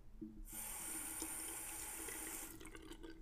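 Water runs from a tap while a face mask is washed off: a faint, steady hiss that starts abruptly, flows evenly for about two seconds, then stops.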